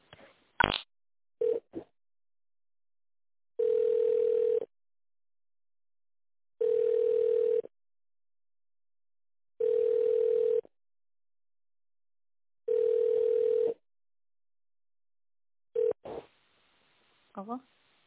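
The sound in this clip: Telephone ringback tone while a call is transferred to the company director: a steady single-pitch beep lasting about a second, repeating four times with roughly two-second gaps, with brief clicks and short fragments at the start and end.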